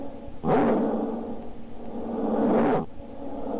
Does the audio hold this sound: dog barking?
yes